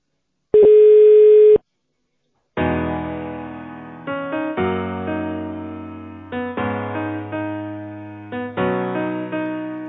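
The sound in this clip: Telephone connection tone as a call to a bank's contact center is put through to an operator: one steady electronic beep, a short silence, then a loud melodic sequence of repeated, decaying electronic notes.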